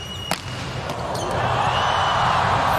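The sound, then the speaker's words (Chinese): A volleyball serve scoring an ace during a final between Poland and the United States: one sharp, hard ball impact, then a steady wash of noise that slowly swells louder. “哈内斯发球直接得分”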